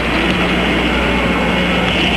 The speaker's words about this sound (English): All engine running. Liftoff. We have a liftoff. 32 minutes past the hour. Liftoff on Apollo 11.